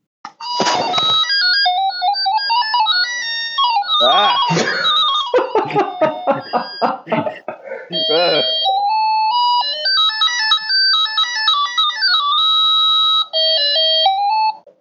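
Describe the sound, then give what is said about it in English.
A chiptune rendition of the theme from the Sega racing game Daytona plays as bright, beeping square-wave notes in quick runs, turning choppy and glitchy midway before a steadier melody returns. A voice gives a brief exclamation. “the chiptune rendition of the Daytona theme.”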